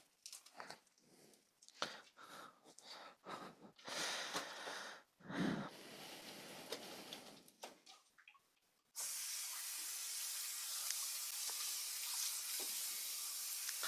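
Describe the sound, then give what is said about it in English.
Running water rinses a dirty lid in a kitchen: a steady, loud hiss of flowing water starts partway through and continues to the end, after a stretch of clattering handling sounds and brief splashes, with no talking. “Washing off this lid, it got a little dirty here.”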